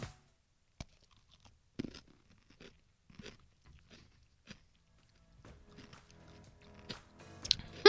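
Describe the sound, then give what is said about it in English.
A dill pickle topped with ice cream is bitten and chewed during a taste test, giving faint, sparse crunches and wet chewing that grow busier toward the end. “we're using the dill pickle as like a spoon? We're supposed to load some ice cream on the top? That's what I've done. That's what I'm doing. Okay. One bite, a simple thumbs up or thumbs down. Taste test Tuesday. This is pickles and ice cream.”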